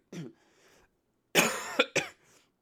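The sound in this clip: Someone clears a throat thick with mucus: a short rasp, then a longer, harsh hacking clear with a couple of quick catches after it, fairly faint, with no talk.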